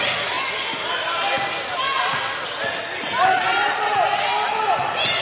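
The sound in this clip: Dull basketball bounces repeat as the ball is dribbled on the court during a game between the Aggies and Beauregard, a few steady thumps under continuous crowd noise.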